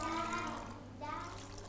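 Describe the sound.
Water splashing and trickling from a damp cloth wrung out by hand, a brief continuous wet pour with a voice talking over it.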